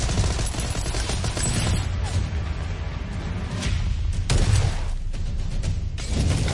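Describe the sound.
Gunfire in a multiplayer deathmatch video game rattles on in dense, rapid bursts with occasional heavier booms, loud and continuous throughout without a break.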